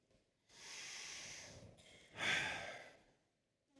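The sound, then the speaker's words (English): A deep breath drawn in during a Christmas Eve church gathering: faint, airy, and hissing, swelling once and then again more strongly before trailing off into quiet, with no talking. “So take a deep breath in.”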